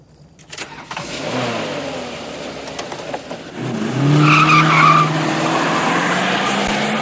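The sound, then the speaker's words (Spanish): A car engine revs hard and accelerates toward a truck, climbing in pitch. Tires squeal loudly midway, then the engine holds a strong, steady roar. “Se acercan al camión de un acelerón.”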